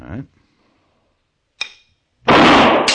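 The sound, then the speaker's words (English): After a brief voice, a ball taps a target as a string is released, one short, sharp tap standing alone in near silence, followed soon after by a loud, harsh, sustained burst of noise. “Now, as I let go of each string, the ball will tap the target. So you listen very carefully and shoot as quickly as you can.”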